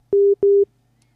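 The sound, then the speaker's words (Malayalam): A phone busy tone sounds after a dropped call: two short, steady, low-pitched beeps in quick succession, each lasting about a fifth of a second, followed by quiet. “Hello, ആ call കട്ടായി.”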